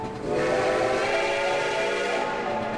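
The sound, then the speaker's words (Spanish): Steam train arriving at a station, as in the 1895 Lumière film shot in France: a loud, sustained steam whistle over rumbling rail noise, steady from start to finish. “París, 1895. La arrivée d'un train gare. La llegada de un tren a la estación de la ciudad es considerada la primera proyección cinematográfica de la historia.”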